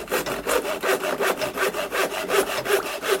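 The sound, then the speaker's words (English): A saw cuts a piece of trunk from a whole tree, rasping through wood in many steady, evenly paced back-and-forth strokes that stay loud throughout. “Next, I shall saw a piece of trunk from the whole tree.”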